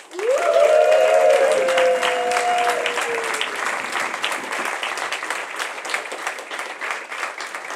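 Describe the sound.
An audience breaks into loud applause to welcome two guest speakers, a dense, sustained wash of clapping that starts abruptly and slowly eases in level.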